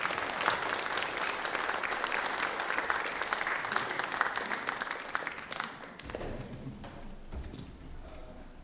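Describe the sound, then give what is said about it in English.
Audience applause welcoming a preacher, dense, steady clapping for about six seconds that then dies away as a voice begins to speak. “can we show him our love and appreciation, even before he preaches, by putting our hands together to welcome him?”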